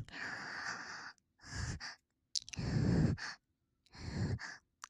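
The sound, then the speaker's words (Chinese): Heavy panting breaths, four long, rough bursts of air separated by short silences, fairly loud and breathy, with no talk between them. “喘息着。”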